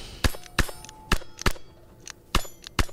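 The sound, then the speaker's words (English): Sharp cracks of .22 rifle fire on a private range: several distinct shots in irregular succession, each a brief snapping report with a metallic ringing edge, with a few fainter clicks between them. “Check out how excited this dad gets just about shooting a gun. He's like, he's shooting it on like a private range.”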